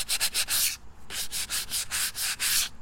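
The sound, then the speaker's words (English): A canoe being sanded before a trip on the Lower Wisconsin River gives off steady, rhythmic rasping strokes, many in quick succession with a brief pause partway, loud and with no talk. “sanding, so I can make my boat pretty. Make the boat pretty before I go out.”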